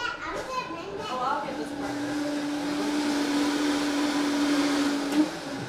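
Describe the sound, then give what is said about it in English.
A blender whirs as it mixes a healthy coffee meal-replacement drink made creamy with healthy fat. A steady, continuous motor drone with a low hum holds for several seconds after a brief stretch of voices at the start. “Now we have to blend it.”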